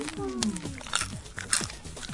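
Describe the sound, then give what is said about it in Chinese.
Crisp crunching and chewing of crusty French bread, the end piece of a baguette, in a series of sharp bites and crunches, with some talk at the start. “其实法国面包不是硬，它是脆。嗯。最香的其实是这一块。 你说尾巴的这一块吗？ 对对对。这一定越嚼越香。”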